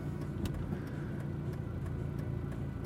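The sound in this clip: A car goes by, heard as a steady, moderately loud engine and road rumble that stays at an even level, with no clear rise or fade.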